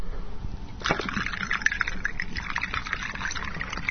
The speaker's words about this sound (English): pouring Diet Coke into a glass